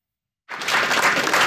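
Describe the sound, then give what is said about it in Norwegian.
Applause welcoming Norway's new women's cross-country ski national team: a short silence, then a crowd of clapping breaks in abruptly and quickly swells to a full, steady roar. “Det nye kvinnelandslaget i langrenn klappes inn.”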